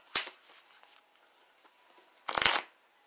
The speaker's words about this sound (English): One more card for me and my twin flame. Up here goes the last card.